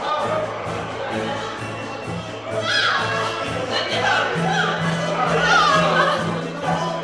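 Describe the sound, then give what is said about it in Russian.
Opening-day crowd of curious onlookers packed along the embankments: a dense, fairly loud murmur of many voices, with children's calls and shouts rising above it throughout. “Но вот наступил день открытия. Набережные были покрыты любопытными.”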